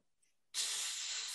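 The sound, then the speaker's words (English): A hissing breath through the rebreather of a helmet mask bursts in suddenly after a near-silent moment, then holds as a loud, steady, airy hiss. “And he takes a shuddering, hissing breath through the rebreather in his mask.”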